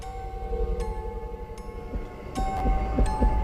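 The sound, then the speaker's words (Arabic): A heartbeat sound effect in a hospital: steady, muffled low thumps pulse in an even rhythm and grow stronger toward the end, with a faint thin tone and a few soft clicks above. “وسمع جنبي الصوت بتاع نبضات القلب. انا في سرير في مستشفى،”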